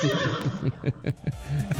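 A horse whinnies in a brief, quavering call made of quick pulsing bursts, fairly soft and lasting under two seconds.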